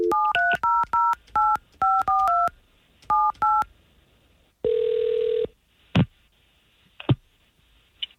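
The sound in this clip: Touch-tone beeps of a telephone number being dialed, a quick run of short bursts in two groups, followed by a longer steady tone and a couple of sharp clicks.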